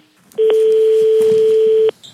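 A single steady telephone tone sounds on a line for about a second and a half, clear and loud, with faint background noise around it and no voices.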